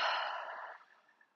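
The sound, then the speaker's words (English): A deep exhale through an open mouth during a guided breathing exercise, a soft breathy rush that starts full and gradually fades away over about a second. “Deep breath in, let your low belly push out. Open mouth, exhale.”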